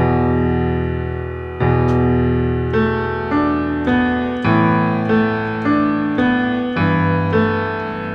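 Piano playing two measures of a verse: a left-hand E power chord of E and B with pedal, under single right-hand notes. A steady series of struck notes and chords, each ringing and decaying, with no voices.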